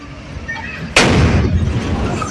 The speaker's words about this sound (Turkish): Önce duman yükseldi, ardından bir anda bomba gibi patladı.